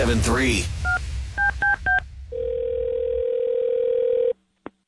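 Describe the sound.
Telephone dialing for a radio prank call: a voice speaks briefly, then a few short touch-tone beeps sound, followed by a long, steady line tone that cuts off, with one last short blip at the end.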